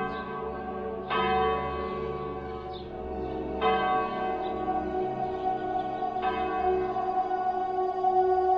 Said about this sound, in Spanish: En el estrépito y el clamor de las campanas.